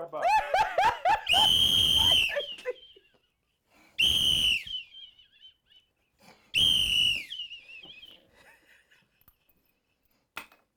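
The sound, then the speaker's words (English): A whistle being blown: a burst of quick short toots, then three long shrill blasts separated by pauses, and one brief final peep. “I'll blow my whistle”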